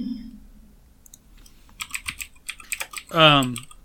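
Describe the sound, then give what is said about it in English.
Computer keyboard typing as a game's name is entered: a quick run of several clattering keystrokes in short bursts, followed by a brief voiced sound at the end. “I will type it out.”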